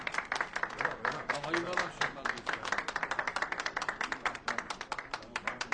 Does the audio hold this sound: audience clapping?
yes